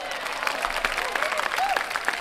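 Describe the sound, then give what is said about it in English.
Audience applause, many hands clapping in a quick, uneven patter at a modest, fairly quiet level. “Clap it up for that.”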